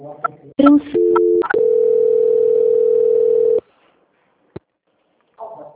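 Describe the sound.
Telephone line tones during a call transfer to a quality-control department: a few short beeps, then a long steady mid-pitched tone that cuts off abruptly, followed by near silence and a single click.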